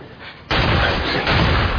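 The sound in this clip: Gunfire from a firearm loaded with smoky, non-smokeless cartridges: a loud, harsh blast bursts in after a quieter half-second and stays dense and roaring to the end, with no clear gaps between shots.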